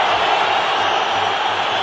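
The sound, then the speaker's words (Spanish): Stadium crowd ovation for Croatian football player Kovačić during a match, a steady, dense roar of many voices sustained evenly throughout without sharp peaks. “Ovación para el croata.”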